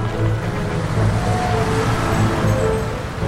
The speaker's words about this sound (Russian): Грузовик с высоким кузовом заезжает в ворота и проезжает по опустевшему острову кошмаров, сквозь туннель в искусственной горе